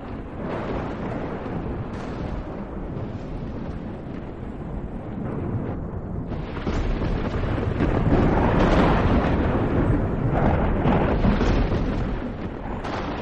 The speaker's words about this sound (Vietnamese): tiếng sét đánh đùng đùng ở trên bầu trời, dường như những bức tường cũng muốn rung chuyển theo tiếng sấm sét vẫn cứ vang lên.